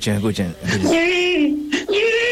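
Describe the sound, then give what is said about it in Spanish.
A man imitates a crying baby for a stage act, with choppy sobbing bursts that give way to a sustained, wavering wail and then a short final cry. “Escuchen. Este es el audio del flaco que hacía de bebé en el acto.”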